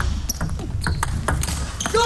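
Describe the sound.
A table tennis serve during a match, with a few sharp, bright taps of ball on bat and table heard beneath a talking voice.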